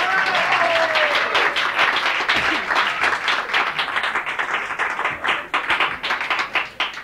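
A live audience applauds a singer returning to the stage. The clapping is dense and steady, then grows patchier and more uneven toward the end.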